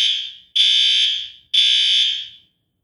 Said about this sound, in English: Unbelievable. Well, that's the fire alarm. Fire alarm. But it wasn't us.